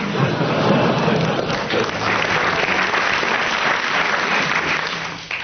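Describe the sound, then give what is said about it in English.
Studio audience applause during a newspaper-headline panel game: a dense, steady wash of clapping that holds loudly for about five seconds before dipping at the very end. “You're getting bonuses of 10 marks each every time the audience applauses, so carry on.”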